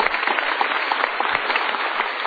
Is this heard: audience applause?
yes

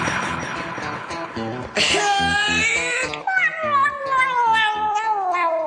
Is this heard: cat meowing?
yes

